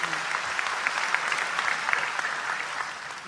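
Audience applause: a continuous, dense patter of many hands clapping at an even level for the whole clip, easing slightly at the very end.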